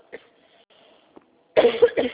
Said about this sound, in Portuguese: calma aí que eu vou tossir